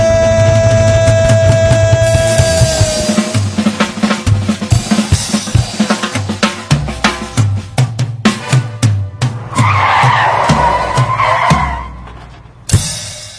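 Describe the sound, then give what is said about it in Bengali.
Car brakes screeching as tires skid, preceded by a long dense run of sharp repeated clattering hits and a brief high whine, building to a harsh squealing burst near the end before cutting off abruptly. “এই ব্রেকের আওয়াজটা শোনার পর অনেকেই কয়েক minute হয়তো ভাববে কেন আমার অ্যালবামটা ব্রেক কষে শেষ হলো।”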